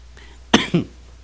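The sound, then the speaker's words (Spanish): A cough from someone in a booth: two quick, harsh bursts in close succession, the second slightly weaker, standing out clearly against a quiet background. “En un principio me ando disculpando por la tos”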